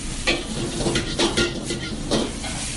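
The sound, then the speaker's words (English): Pad Thai noodles and egg stir-frying together in a wok, a steady sizzle broken by a few louder scraping stirs at uneven intervals. “into the wok and cook together with the egg. This process is gonna take about maybe close to three minutes until the noodle get very soft and cooked.”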